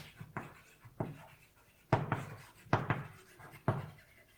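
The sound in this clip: Writing strokes on a board as a label is marked at a tree node: several short, scratchy taps and scrapes at irregular intervals, with no talk.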